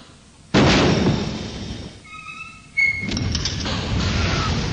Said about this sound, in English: that first sound you heard was the sound of my torpedo tubes being loaded, or one of my torpedo tubes being loaded, and the second noise was the destroyer blowing up